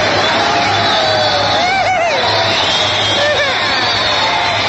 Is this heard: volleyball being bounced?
no